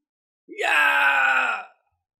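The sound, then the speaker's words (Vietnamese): An agonized groaning cry from people caught in a deadly fantasy battle: a single sustained, strained wail about a second long, starting with a quick upward push and then held steady before cutting off, heard alone. “Những tiếng kêu thảm thiết thê lương liên tiếp vang lên.”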